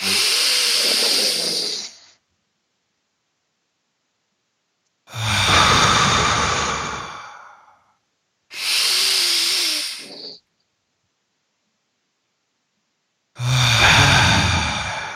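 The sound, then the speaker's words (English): Deep breaths in through the nose and out during a guided stress-relief breathing exercise: four loud, hissing rushes of air, each about two seconds long, separated by long silent pauses. “So big inhale through your nose, feel your stress, and then hold it for three at the top. Exhale for three. Let's do five more.”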